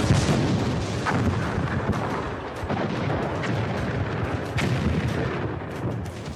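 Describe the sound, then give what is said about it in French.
Reconstructed First World War trench battle noise with artillery fire: a dense, loud, unbroken roar of overlapping booms and bursts, with many detonations blending into continuous rumble throughout. “On connaît peu d'enregistrements des bruits auxquels étaient soumis les poilus pendant la guerre 14 dans les tranchées. Vous entendez là une reconstitution produite par la BBC.”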